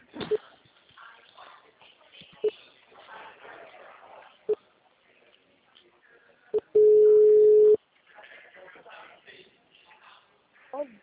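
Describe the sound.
Telephone tones after a dropped call: four short beeps about two seconds apart, then a steady tone lasting about a second, with faint voices underneath.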